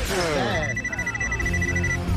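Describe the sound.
A telephone rings for an incoming call, a steady high electronic tone over busy music and other sound.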